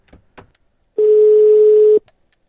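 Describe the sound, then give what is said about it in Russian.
A telephone call's ringing tone sounds as a single steady, mid-pitched electronic beep lasting about one second, loud and alone, with a couple of faint clicks before and after. “Ладно, позвоним Егорке этому.”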